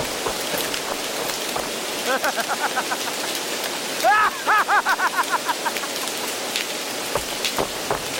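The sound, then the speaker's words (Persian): Steady spring rain falls with a continuous, even hiss throughout, and short voice-like sounds briefly rise above it twice. “عزیزم کجا بودی زیر این بارون دلواپست شدم بارونش بهاری بود”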